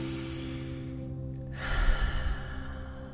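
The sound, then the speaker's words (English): A deep breath in and out during a guided meditation: a brief quiet, then one airy, breathy swell rising over a steady low hum, with no talk. “taking one more deep breath and sending that breath up and out.”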